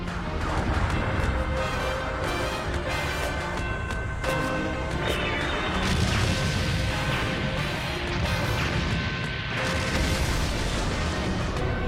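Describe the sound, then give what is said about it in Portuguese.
Explosions rip through an animated battle scene as a dense, unbroken barrage of booms and crashes. The loud rumble continues at a steady level throughout, with no voices. “Ele está a avançar pelo meio daquelas explosões todas.”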